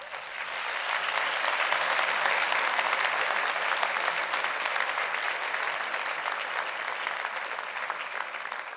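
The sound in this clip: Audience applause welcoming a lecture speaker: a broad, continuous wash of many hands clapping swells in quickly and holds loud and steady throughout.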